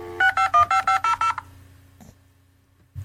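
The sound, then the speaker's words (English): Touch-tone dialing from a dial-up modem: a rapid run of about eight bright beeps in quick succession. The beeps give way to a quieter low hum with a couple of soft clicks near the end. “I got that dial-up sound here on the YouTube.”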